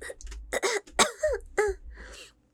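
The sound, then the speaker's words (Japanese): A few short coughs and throat-clearing sounds in quick succession, close-miked, rough and breathy, with brief gaps between the bursts. “咳出ちゃった。”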